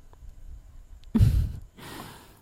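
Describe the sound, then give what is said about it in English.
Breathing: a loud, breathy exhale like a sigh, then a softer, longer breath, with no talk over either. “Now, breathe for me.”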